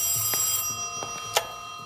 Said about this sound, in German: Gegen Abend klingelte erwartungsgemäß das Telefon.